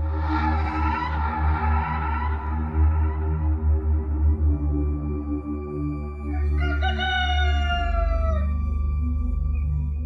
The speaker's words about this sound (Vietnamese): Tiếng gà gái nối tiếp nhau vang vọng khắp cả xóm chài ven sông.